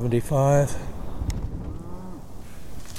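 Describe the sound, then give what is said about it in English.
Cattle low in a grazed pasture on a farm with about 75 head. One loud, short moo opens the sequence and a fainter lowing follows over a low background rumble. “How many cattle are there here”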